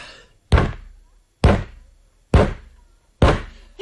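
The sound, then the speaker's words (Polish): A foot kicks a chair four times: four loud, hollow thuds at a steady, evenly spaced rhythm, each striking sharply and then fading before the next. “4 razy kopnął pan nogą w krzesło.”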